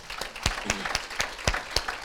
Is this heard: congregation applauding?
yes

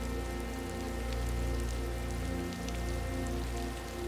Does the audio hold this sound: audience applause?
no

